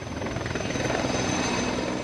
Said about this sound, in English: A state of emergency was declared, and helicopter tankers mobilized. Circling in the orange, smoke-filled sky like angry wasps, they dropped thousands of gallons of water on the flames